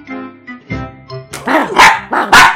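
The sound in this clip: A dog barks: softer, whiny vocal sounds lead into a few loud, sharp barks with uneven spacing.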